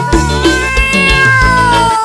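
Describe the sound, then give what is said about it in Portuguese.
A kitten meows loudly in high, drawn-out cries, the pitch sliding gently downward through a few overlapping calls. “Não amor, não é o gatão não, é o gatinho. Ah, então tá bom, então é o gatinho”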